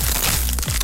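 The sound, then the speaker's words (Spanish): Crunchy Crunch tortilla chips, a Costa Rican snack, being bitten: a dense, brittle crackle and crunch that fills the whole short moment. “las tortillitas chips más crujientes,”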